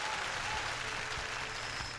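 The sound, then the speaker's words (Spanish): Audience applause greets two doctors, a brother and sister, as they are introduced. The clapping is dense and steady, holding an even, fairly loud level for the whole stretch with no voices over it. “Un aplauso para estos dos seres.”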